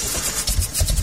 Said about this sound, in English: That sound is a major headache. For diesel truck and fleet owners, a struggling engine means lost time, lost income, and canceled plans.